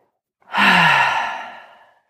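A single deep breath, taken during a guided breathing exercise, rises quickly and then trails off in a soft, airy exhale of about one and a half seconds.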